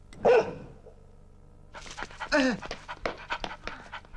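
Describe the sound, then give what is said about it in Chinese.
A big dog gives one short bark-like burst, then, after a pause, pants and huffs in quick, rough, breathy bursts. “隻狗咁大隻嘅”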